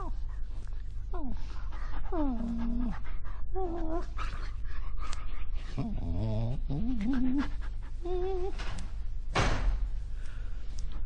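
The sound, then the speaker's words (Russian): A dog with an injured leg whimpers and pants at a neighbour's door late at night. Many high, wavering whines rise and fall in pitch over steady breathy panting. “Ой, ты собака, несчастная собака.”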